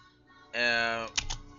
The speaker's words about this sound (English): I just typed my name for the sake of demonstration here.